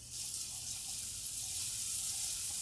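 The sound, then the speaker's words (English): Butter sizzling in a hot nonstick pan while cooking gluten-free crepes: a steady, bright hiss of frying fat that holds evenly throughout, with no talk. “Ooh, that sucker's hot. Okay. Let's put butter in.”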